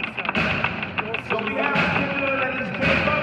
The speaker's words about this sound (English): they're kind of communicating with the inmates who are lining up and banging their windows in a kind of call and response